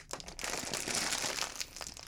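A bag of chips being opened gives a faint, continuous crinkling and crackling of plastic for about two seconds.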